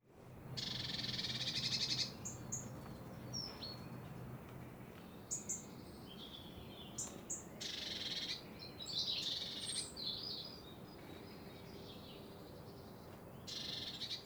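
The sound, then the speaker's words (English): A blue tit gives its harsh chirring call in a few rasping, buzzy bursts. The first burst lasts about two seconds, and fainter high chips are scattered between the bursts over a soft, steady background hiss. “So what you heard there was what I'd call the kind of chirr of a blue tit.”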